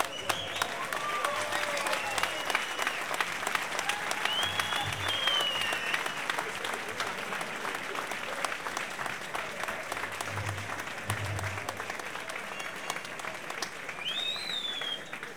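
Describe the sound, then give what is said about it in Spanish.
Audience applause at a live fan-day concert celebrating a band's 50th anniversary. Dense, steady clapping fills the whole stretch, with a few whistles rising above it and a voice faintly underneath. “señores, señores, un aplauso para don Jorge García Vanegas”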